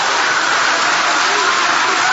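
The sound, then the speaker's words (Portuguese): A church audience applauds during a sermon. The clapping merges into a continuous, dense wash at a steady, fairly loud level. “Pode aplaudir, Ele merece.”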